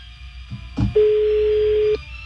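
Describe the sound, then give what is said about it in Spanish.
Ringback tone of an unanswered phone call: one steady, mid-pitched tone lasting about a second, preceded by a short thump and set against faint background noise. “No contesta. Está sonando.”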